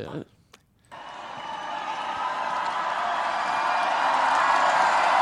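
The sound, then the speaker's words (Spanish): Audience cheering at a Eurovision song contest swells into a dense, steady roar after a brief quieter opening, then grows gradually louder to the end. “es el público. Sí, sí, supongo.”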